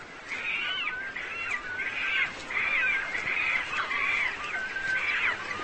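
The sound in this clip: Many birds call noisily while competing for nesting sites, a dense chorus of harsh, overlapping cries that keeps up loudly for the whole stretch with no pauses and no talk.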